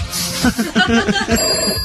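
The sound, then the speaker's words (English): Telephone ringing between contestant calls on a phone-in show, a brief electronic ring with thin high tones near the end, sounding under ongoing talk and background noise. “There goes the phone again. Here's another contestant.”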